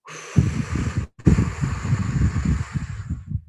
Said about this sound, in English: do a big breath in through the nose, really fill the lungs, and do a slow, long breath out through the mouth. So you can actually hear the breath.